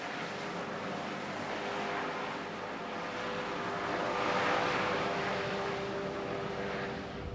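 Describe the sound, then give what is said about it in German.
An aircraft carrying a heart patient from the island of Borkum to a partner clinic gives a steady engine drone with a faint tonal whine, swelling slightly midway and holding evenly, with no talk. “Der Patient wird zur Partnerklinik nach Lea geflogen.”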